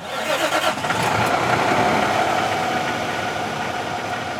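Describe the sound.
A car engine starts and runs as the driver sets off on a passenger shuttle, with an irregular rumbling surge at first that settles into a steady, loud, continuous drone.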